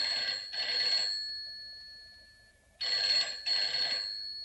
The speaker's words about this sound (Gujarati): એક મિનિટ, જરા ફોન જોઈ લઉં.